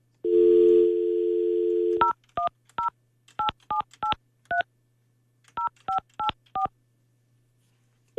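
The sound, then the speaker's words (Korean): A telephone dial tone hums steadily for about two seconds, then eleven short, bright keypad beeps are dialed in two quick bursts with a pause between them. “그러면 다시 한번 제가 지금 전화 한번 해볼게요.”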